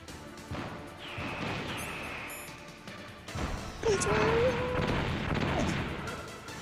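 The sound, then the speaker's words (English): Rocket fire in the video game Metal Gear Solid: a few sharp blasts and booming impacts, mixed with other game sounds and a sustained tone near the middle. “That rocket went past him.”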